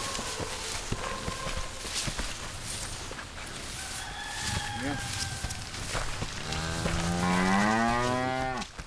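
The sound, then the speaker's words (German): Cows mooing: a long, loud, low moo fills the last couple of seconds, with fainter, shorter lowing calls earlier over a steady rough background noise. “Kühe kann man reiten wie Pferde. In der Schweiz ist das ganz normal.”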